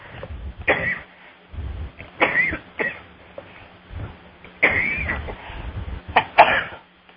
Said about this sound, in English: That was a little tickle in my throat.